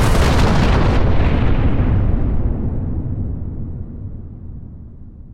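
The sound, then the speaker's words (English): A massive explosion from a uranium atom bomb dropped by a B-29 bomber over the city of Hiroshima: one loud, deep roaring blast that rumbles on and slowly dies away over about five seconds, heard alone. “the American B-29 bomber, the Enola Gay, drops a uranium atom bomb over the city of Hiroshima. It causes a blinding white-blue flash.”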